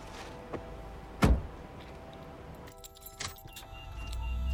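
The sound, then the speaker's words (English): Someone getting into a car and shutting the door: one solid thud stands out, followed by quiet shuffling and a light jingle of keys. “He gets into the car and shuts the door.”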